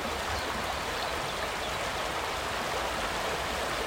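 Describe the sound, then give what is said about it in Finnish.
The rapids of the Mustijoki river, its longest natural-state rapids, give a steady, even rush of flowing water. The broad hiss continues without pauses, and no voices are heard. “Mustijoen pisin luonnontilainen koski. Ja siellä kun herra radiokuuluttaja aamusella aikaisemmin tänään käväisi paikan päällä, niin tältä siellä kuulosti.”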